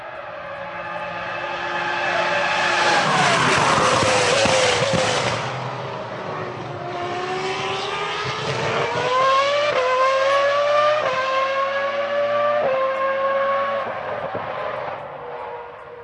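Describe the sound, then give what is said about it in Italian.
A 2004 Ferrari engine roars at high revs in a loud, sustained wail. It drops, then climbs again through several upshifts with clear steps in pitch, continuous and without talk. “questo era il suono di una Ferrari del 2004”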